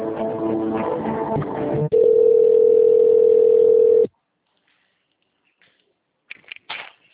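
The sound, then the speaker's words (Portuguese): Telephone line tone while a call is transferred: a steady, unbroken, fairly loud tone lasting about two seconds, which then cuts off into silence, followed by a few faint, brief clicks. “Só um minutinho que eu vou transferir a ligação para o senhor.”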